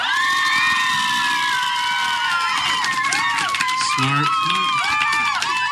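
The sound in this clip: An audience at a live quiz event cheers and shouts in answer to a question, with high children's voices and whoops. Loud, sustained and unbroken from start to finish.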